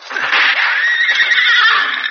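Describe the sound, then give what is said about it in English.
A horse that has been hit during a shootout lets out one loud, sustained whinny lasting about two seconds. “Hit one of the horses.”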